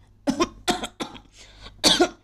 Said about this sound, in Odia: ଆରେ ରୁହ କାଶ ବି ଆରମ୍ଭ ହେଲାଣି